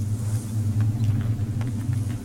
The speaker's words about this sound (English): what's that? It's a storm. We have to take shelter.